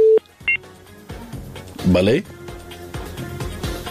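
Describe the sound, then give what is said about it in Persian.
Telephone dialing tones sound as a call is connected: a short beep and then a brief higher dual tone, followed by muffled line noise and talk. “میریم تماس بعدی را وصل میسازم، بشنیم کدام از ما هست.”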